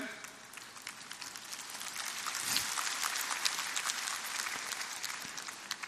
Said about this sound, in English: Sorry, wala sa script yung mga when do we clap.